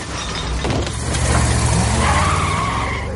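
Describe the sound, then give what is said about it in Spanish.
An RV accelerates and knocks over trash bins, its engine letting out a loud, steady roar with a broad rumbling low end and a short clattering knock early on. “Acelera y tira otro cubo de basura con un lateral.”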